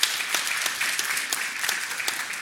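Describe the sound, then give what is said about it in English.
A church audience gives a round of applause for its pastoral team, staff and worship team. The dense, steady clapping runs at an even level from start to end, with no voices over it. “let's give the pastoral team here, the staff, the worship team, this church, yourselves, a round of applause for the glory of God.”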